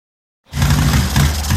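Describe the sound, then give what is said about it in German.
A sputtering motorcycle engine on a cross-country trip, heard as a loud, rough roar that bursts in after a short silence and then holds fairly steady with slight surges. “Yeah, bike's sputtering on me. That's not what you want on a cross-country trip.”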